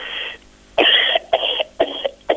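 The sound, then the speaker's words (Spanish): Throat clearing and coughing come in a few loud, rough bursts with short gaps between them and no speech. “Perdone, tengo una tos y media brava.”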